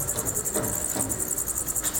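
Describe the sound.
Giant crickets chirping in a rapid, continuous high-pitched trill of many evenly repeating pulses, loud and steady throughout with no voices.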